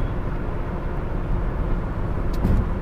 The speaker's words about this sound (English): My car is loud on the road, and it's already loud, so that's why I'm trying to talk louder.